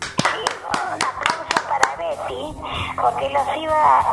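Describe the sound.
A few quick rhythmic hand claps sound in the studio of a Spanish-language radio show to cheer a caller. They run under a talking voice for the first two seconds before the speech carries on alone.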